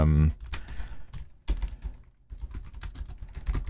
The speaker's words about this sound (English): I had to type something out because I will forget that later.